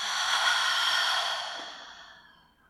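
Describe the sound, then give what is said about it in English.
A long, deep breath is let out through the mouth during a guided meditation: a breathy, airy rush that holds steady, then slowly fades away over a couple of seconds. “Deep breath. Fill the whole body with breath as you inhale through your nose and exhale through the mouth.”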